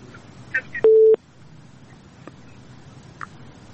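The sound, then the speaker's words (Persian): Telephone busy tone after a listener's call into a radio show is cut off: a single steady mid-pitched beep lasting about a third of a second, framed by faint clicks and a quiet background. “تماس شنونده ما قطع شد”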